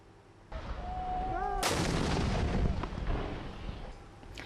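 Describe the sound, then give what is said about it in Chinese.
Artillery shelling and heavy machine-gun fire from government forces striking rebel positions in a war zone: a sudden heavy blast, then sustained rumbling and rapid crackling bursts that ease off slightly toward the end. “在也门西南部塔伊兹省，也门政府军持续向胡塞武装阵地发射炮弹，并使用重机枪等武器向胡塞武装发起打击。”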